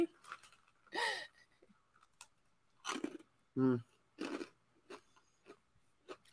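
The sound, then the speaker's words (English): Biting and chewing a hard, crunchy cookie: several sharp, dry crunches in an uneven rhythm with softer chewing between them and a brief voiced murmur midway through. “I might get a bite of this cookie. It's not a soft cookie.”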